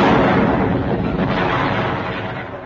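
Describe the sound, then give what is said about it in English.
A barrel of exploding saxophones goes off in a comic scene as a loud, dense, rumbling explosion. The roar stays heavy for the whole moment before easing off slightly at the end. “I'm tied to this barrel of exploding saxophones.”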